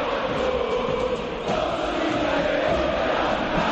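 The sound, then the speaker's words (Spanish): River Plate football fans chant against the AFA president at the club's ground in Núñez: a dense, steady roar of massed voices that holds loud throughout without a break. “Hace rato que cada uno de los cánticos del público de River tiene que ver justamente con la figura del presidente de la AFA y no lo consideran muy bien que digamos.”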